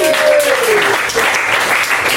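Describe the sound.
Audience applause at a comedy show as the crowd claps for all the performers: a dense, steady wash of clapping that holds throughout, with a brief high whistle near the start.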